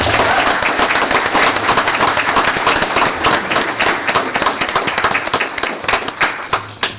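Loud, dense applause from people at a county commission meeting honoring an employee of the month. Many hands clap steadily throughout without a break, with a few sharper claps standing out near the end.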